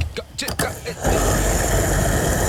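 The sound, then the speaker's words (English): A fuel pump fills a Kia car with a steady, loud rushing hum that starts abruptly after about a second of talk and holds evenly. “We'll start filling up the Kia, okay?”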